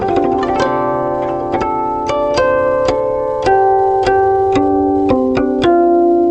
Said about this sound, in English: The guqin has three types of timbre. The first is the heavenly sound. That's the heavenly sound.